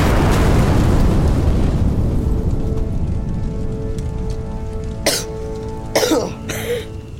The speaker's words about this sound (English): We blasted a hole all the way to China.